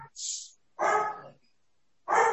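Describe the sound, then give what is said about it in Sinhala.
A dog barks in three short bursts with silence between them. The first is a thin, high yelp and the next two are fuller, lower barks. “දැන් බල්ලා බුරනවා. ඔබතුමියගේ පැත්තේ බල්ලේ බුරනවා කියලා අපි දැනගා.”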